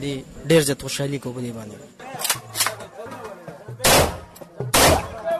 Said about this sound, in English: On the dance floor, some of the boys pull out guns and start firing real bullets into the night sky.